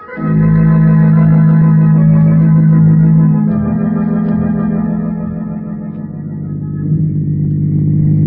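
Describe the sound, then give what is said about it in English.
Car driving along an empty road, heard as a continuous low, rumbling engine drone with a steady humming tone that holds throughout, dipping slightly midway before swelling again. “Hey, Mr. Cranston, why are we driving out here for? Why? There ain't nobody out here on the road, sir”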